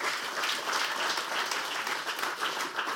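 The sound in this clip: An audience applauds to welcome a student speaker about to bring the morning message: dense, steady clapping from many hands, sustained at an even level throughout.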